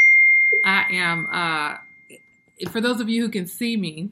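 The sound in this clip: A phone notification ding sounds as a single faint, sustained high tone that holds steady beneath a man's talk before fading out.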